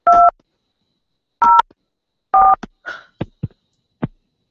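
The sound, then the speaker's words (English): Telephone keypad dialing tones: three crisp dual-pitch beeps at uneven intervals, followed by a few short clicks and knocks. “If you know the extension number of the party you wish to reach, please dial it now.”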